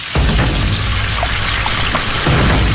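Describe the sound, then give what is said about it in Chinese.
Dried Sichuan peppercorns and hot chilies sizzle in oil over high heat. A loud, dense crackling hiss holds steady for the whole clip. “大火热油起底，加入干花椒和魔鬼辣椒，热油爆香。”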